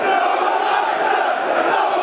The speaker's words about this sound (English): 1-0 Millwall. Bolton are going to have to come out of their shell now, listeners. That's got the den livened up as well. It's brought the crowd into play.